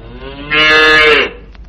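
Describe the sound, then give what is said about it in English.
A calf from a farm herd moos once, a loud, drawn-out bellow rich in harmonics that swells and holds for under a second before stopping, with no talk around it. “I'm having the calf vaccinated this afternoon. So, tomorrow he goes back with the rest of the herd. You like that, Augustus, huh?”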